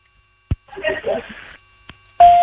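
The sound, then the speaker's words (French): An answering machine beep on a phone call: after a brief click and some talk, a single loud, steady tone sounds and holds to the end. “Eh ben non, ça va être le répondeur, hein.”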